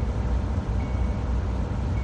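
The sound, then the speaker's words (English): A 35,000-pound driverless truck rolls down a busy highway with a steady, loud, low rumbling roar of engine and road noise, unbroken from start to finish. “Yeah, that's 35,000 pounds of steel thundering down a busy highway with nobody behind the wheel.”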